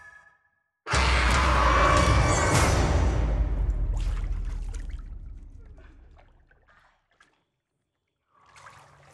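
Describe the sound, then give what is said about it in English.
Running water used for rinsing: a sudden loud rush of flowing water that holds for a few seconds, then gradually tapers off to a faint trickle and stops. “Rinsing.”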